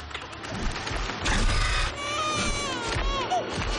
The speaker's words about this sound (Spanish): Tras el depósito, el niño llora.